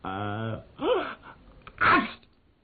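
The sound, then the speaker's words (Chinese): A voice imitates a sneeze: a drawn-out vocal build-up, then two sharp sputtering bursts, moderately loud and with no other sound. “打了个喷嚏清醒了”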